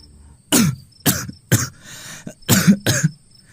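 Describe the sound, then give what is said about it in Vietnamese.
An elderly woman coughs in a run of several harsh, throaty bursts separated by short gaps. The coughs are fairly loud, one rougher and more drawn out than the rest, with no talk. “bà Bốn Đan, mẹ Lực, vừa ho vừa lên tiếng.”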